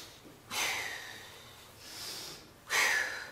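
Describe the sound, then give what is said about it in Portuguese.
Sharp nasal sniffing inhales alternate with a softer breathy blow-out in a guided smell-the-rose, blow-the-candle breathing exercise. The two strong sniffs frame a quieter exhale, and no one speaks. “E sopra, e cheira a rosa e sopra a vela.”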